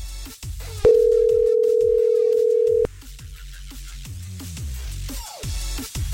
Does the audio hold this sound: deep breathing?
no